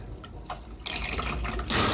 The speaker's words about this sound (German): Sie lässt schon wieder Wasser in einen Eimer einlaufen.